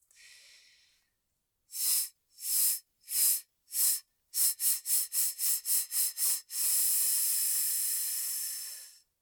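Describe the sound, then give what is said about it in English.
Breath pulses on a hissing TS syllable: four evenly spaced quarter-note bursts, then eight quicker eighth-note bursts, closing with one long sustained hiss. “We'll start by breath pulsing on a TS syllable with quarter notes and then eighth notes.”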